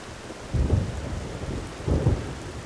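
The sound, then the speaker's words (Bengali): Heavy rain pours steadily in a sudden storm while two deep rolling rumbles of thunder swell and fade in turn. “হঠাৎ প্রচণ্ড ঝড় উঠল তার সাথে ব্যাপক বৃষ্টি আর তার সাথে বজ্র বিদ্যুৎ”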